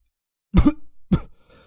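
After choking on a mouthful of cola, someone coughs and sputters: two sharp, loud coughs, then a faint breathy trail.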